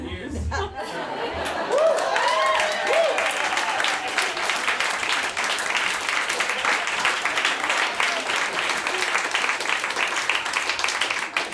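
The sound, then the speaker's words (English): An audience applauds in steady, dense clapping that stays loud and even for the whole stretch, with a few voices at the start. “Oh, more applause. This is great.”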